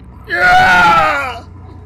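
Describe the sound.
A boy screams in pain: a single loud, strained cry that swells quickly, holds with a wavering, raw tone for about a second, then fades away.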